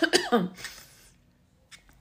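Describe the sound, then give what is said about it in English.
A person coughs and chokes with a quick cluster of three harsh coughs, then trails off into near silence with a faint breath near the end. “Excuse me. I'm choking over here.”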